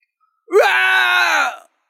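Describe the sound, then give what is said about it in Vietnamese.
A single drawn-out groaning roar, voice-like and wailing, lasts about a second. It swoops upward briefly at the onset and then holds a steady pitch before cutting off, alone against silence. “Một tiếng gào thét trầm thấp truyền đến.”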